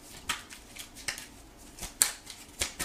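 Soft taps and light slaps of tarot cards being handled as a card is accidentally knocked out of the deck. A few faint, brief clicks are scattered through quiet.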